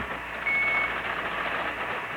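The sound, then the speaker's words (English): A pocket alarm watch gives a single high-pitched electronic beep lasting under half a second, set against steady background noise. “What the hell is that noise? Oh, sorry. I've got a pocket alarm watch, and it keeps trying to tell me something.”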